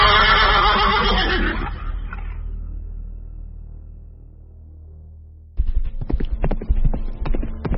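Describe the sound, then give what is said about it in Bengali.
A horse gives a loud, drawn-out whinny, then a low rumble fades, before rapid hoofbeats of horses galloping into a jungle break in sharply and continue at a quick, uneven rhythm. “আমি আর ব্রজমোহন অর্থ আর কার্তুজের বাক্স ঘোড়ার পিঠে ঝোলানো থলের ভিতর রেখে উর সাহেবকে অনুসরণ করে ঘোড়া ছুটিয়ে দিলাম।”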